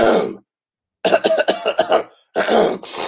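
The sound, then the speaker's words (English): A man imitates a sniffling plane passenger in a loose bandana mask coughing and clearing his throat. A short rasp is followed by a pause, then a run of quick rough coughs, and a last throaty burst. “sniffling, sneezing, coughing, clearing his throat”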